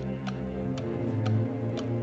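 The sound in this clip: Ticking of a clock inside a crocodile: four crisp, evenly spaced ticks about half a second apart, sounding over a low, steady droning hum.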